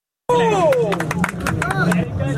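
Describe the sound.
Crowd hubbub with scattered sharp claps and raised voices, including a few gliding vocal tones, as people watch a gymnastics club perform on Independence Day. It starts abruptly and stays loud and dense throughout.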